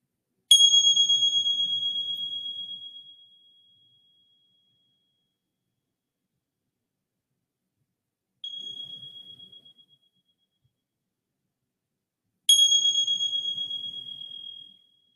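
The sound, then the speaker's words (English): A meditation bell rings out three times alone, each bright, high-pitched strike shimmering with overtones and decaying slowly; the second strike is softer and shorter than the first and third. “noticing this breath that is here, noticing that you are here, and receiving the sounds of the bell.”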